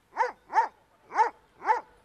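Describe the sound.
A dog barks four times in quick succession, sharp mid-pitched barks in two pairs separated by a short pause, heard alone without talk.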